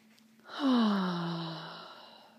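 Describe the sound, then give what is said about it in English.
A deep breath taken during a guided relaxation and self-acceptance exercise: one long, breathy sigh that swells quickly, then fades slowly over about two seconds, heard alone without talk. “Let's take another deep breath.”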